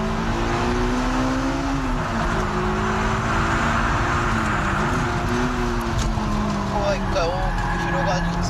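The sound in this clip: A car accelerates out of a corner on a race track, its engine holding a steady droning pitch with slight wavers while a person talks continuously over it.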